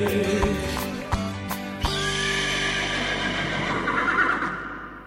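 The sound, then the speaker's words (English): A horse, used for a therapy pony story, gives a long, loud whinny that tapers off, with a few sharp knocks near the start. “Community helps woman track down stolen therapy pony.”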